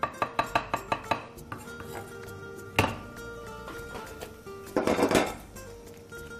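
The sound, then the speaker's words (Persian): Mushrooms go into a cooking pan. A quick run of sharp kitchen taps and clatter comes first, then a single heavier knock, then a short, loud, hissing burst of noise. “من قارچش میخوام بهش بزنم.”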